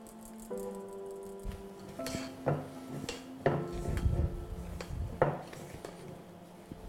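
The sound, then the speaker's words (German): Flour is sieved into a whipped egg mixture for sponge batter, giving faint irregular scraping and rubbing with several light knocks and rattles of the sieve against a bowl, with no voices. “Jetzt machen wir die Eiweiß in diese Eigelb. Jetzt machen wir das Mehl durchpassieren.”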